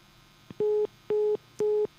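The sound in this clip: Three steady, evenly spaced beeps of a telephone line tone after a call was cut off. Each beep is short, holds one fixed pitch, and sounds alone with no talk.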